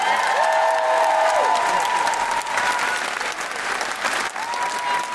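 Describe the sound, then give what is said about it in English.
Audience applause with some cheering welcomes a comedian onstage at a live Amnesty International and Guilty Feminist comedy show: loud, sustained clapping that stays full throughout, with a few steady tonal notes ringing over it. “Put your hands together and give her a big guilty feminist.”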